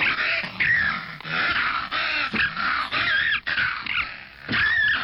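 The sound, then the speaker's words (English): Two foxes fighting, with whining and yelping: harsh, high, strained cries that run almost nonstop, broken by a few short gaps and sharp squealing rises. “What you're listening to there are two of these small little furry things that are fighting. These are fox.”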